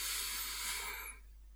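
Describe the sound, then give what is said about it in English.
A single long, hissing breath out during a guided meditation, loud for about a second and then trailing off into quiet. “Out. Breathe in. Out. Breathe in.”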